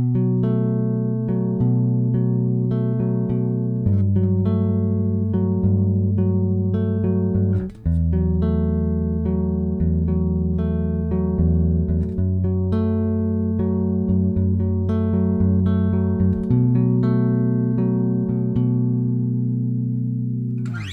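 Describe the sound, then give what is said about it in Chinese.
Played chords hold the same two top notes while the bass note beneath them changes, starting with a Bm7 voicing and moving to Gmaj9. The chords are sustained and steady, with a new chord roughly every four seconds. No voices are heard. “你可以听到我的高音的那两个音其实都是一样的音，但是我低音的音在改变。所以如果你真的要讲和弦的话，那我弹的第一个扣，好，这个我是把它当作 Bm7 来想的”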